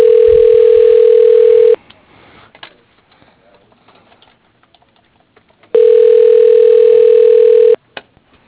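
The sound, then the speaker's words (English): Ringback tone on a telephone line waiting to reach voicemail: two long, steady, mid-pitched tones of equal length, separated by a long gap of faint line noise, with a small click at the very end. “We're going with Bobby's voicemail.”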